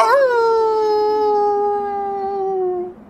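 A wolf howl: one long, sustained, tonal cry lasting about three seconds, holding a steady pitch before drooping slightly and cutting off at the end.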